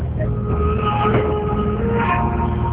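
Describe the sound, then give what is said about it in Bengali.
Low, steady engine hum inside a bus carrying passengers, a muffled droning rumble with a faint sustained whine on top and no distinct voices. “ওকে, তাহলে চল এখনই আমরা বাসে উঠে পড়ি সেই বন্ধুদের সাথে মিট করার আশায় এবং নতুন কিছু অভিজ্ঞতার আশায়।”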